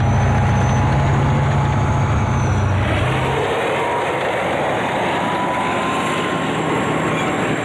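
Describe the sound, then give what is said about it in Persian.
Military tanks driving during a tank-driving competition at a tank training ground, heavy engines giving a loud, steady roar with a deeper low drone that eases after about three seconds. “با سهم وزارت مدافع علاقه سال روان در این میدان تنکرانی بین ساختار های قدرتی مسابقه راندن تنک در سطح بلند دایر کرده شد.”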